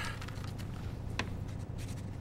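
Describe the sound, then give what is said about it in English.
Writing something down: faint pen-on-paper scratching in short, uneven strokes, quiet against a steady background hiss. “Okay, I'll write it down, but I think I'll need a bigger map.”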